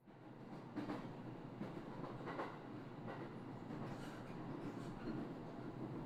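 Faint, steady rumble of a train running on rails, with a few soft rhythmic clacks repeating across the short stretch and no voices.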